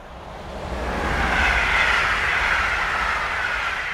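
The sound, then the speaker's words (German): A high-speed train heading to Barcelona rolls along, heard as a steady, broad roaring rumble with a hissing wash that swells in the middle and holds to the end, with no voices. “David Koll schlägt mir vor, dafür nach Barcelona zu fahren und so setze ich mich am nächsten Morgen in den Hochgeschwindigkeitszug.”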